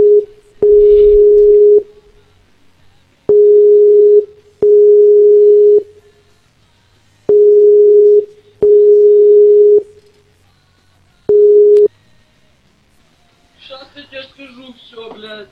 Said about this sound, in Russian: сейчас позвоню